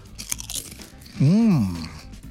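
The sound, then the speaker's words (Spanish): Someone crunches a grilled jalapeño-flavoured snack, with loud, brittle bites and chewing. A short voiced hum follows, rising and then falling in pitch. “Bueno, discúlpame, pero voy a tener que seguir masticando aquí.”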